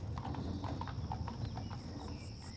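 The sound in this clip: Hooves clop in a steady, brisk rhythm as a horse pulls a wagon away at the start of a journey. Many even hoof beats sound alone, with no voices.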